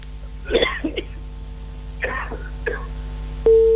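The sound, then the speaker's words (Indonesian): A person coughing, two harsh clusters of short coughs separated by a pause, followed by a steady electronic tone that starts at the end. “Batuk nih.”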